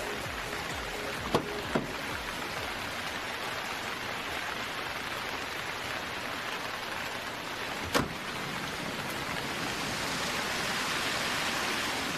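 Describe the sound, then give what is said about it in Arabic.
Steady rain falling, an unbroken hiss that runs from start to finish, broken only by a few short, sharp knocks near the start and one more partway through. “حضرتك رايح فين في المطرة دي يا حاج؟”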